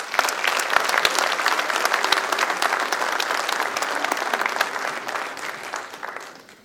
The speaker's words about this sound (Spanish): Con el aplauso de ustedes, por supuesto.